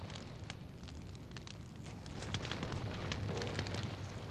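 A fire burns with a steady rushing roar, peppered with many sharp crackles and pops, growing slightly louder toward the end.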